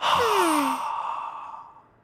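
A slow breath out through the mouth during a guided belly-breathing exercise: one long, soft exhale fading gradually over about two seconds, heard alone.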